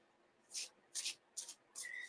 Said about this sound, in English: Just gonna shuffle and just clear a bit here.